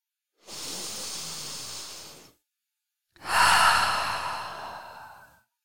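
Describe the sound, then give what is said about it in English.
One deep, breathy inhale, then a short silence and a longer, stronger exhale that fades out slowly. “take a deep breath”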